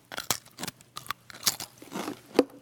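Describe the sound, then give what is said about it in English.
Pringles potato chips crunch as they are bitten and chewed, a faint series of crisp, irregular cracks and crunches spread across a few seconds. “It's hard to eat half of a Pringle, by the way. Ever notice that?”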